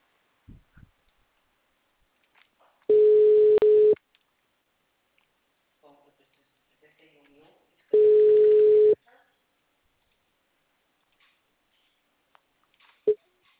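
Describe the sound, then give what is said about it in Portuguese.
A telephone call goes unanswered. Two long, steady ringback tones of about one second each are separated by several seconds of near silence, and a faint click comes near the end. “Liguei agora, mas só chama.”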